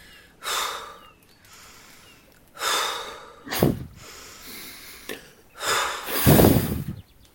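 Fast, forceful breaths during a guided tapping and breathing exercise, heard alone as a few loud, airy bursts separated by quiet pauses.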